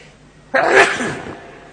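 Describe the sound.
A single sneeze: one sudden, loud burst that peaks quickly and then fades away over about a second, heard alone without talk.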